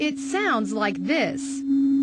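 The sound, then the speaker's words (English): A steady, low, hum-like tone of binaural two-tone digital drug audio plays under a spoken voice throughout and is heard alone for a moment at the end. “And uses binaural or two-tone technology to alter your brainwaves and mental state.”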